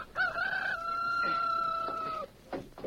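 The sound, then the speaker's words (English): A rooster crows once in a long, steady, high-pitched call that holds for about two seconds and then stops, followed by faint scattered sounds. “Yeah, I hear a rooster crowing, too.”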